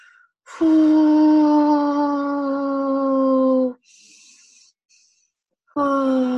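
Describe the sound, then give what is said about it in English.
A voice imitates a labouring woman breathing out through a contraction with a long, steady, low moaning tone lasting about three seconds, a brief breathy hiss, then the moan starting again. “I'm going to show you how she was. This was the contraction.”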